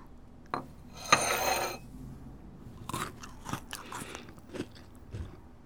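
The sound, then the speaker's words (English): A cookie is bitten and chewed: one crisp bite, then a longer grinding crunch, followed by several softer, irregular chewing crunches, all fairly quiet. “You must absolutely try this cookie. I made it just for you.”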